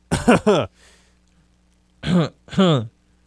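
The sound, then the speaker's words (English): Throat clearing, four harsh voiced bursts in two quick pairs separated by a silent gap of over a second. “Sorry, God. I got to clear something my throat. In my throat.”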